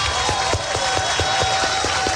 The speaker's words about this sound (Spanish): Denle el aplauso al Señor, bien grande.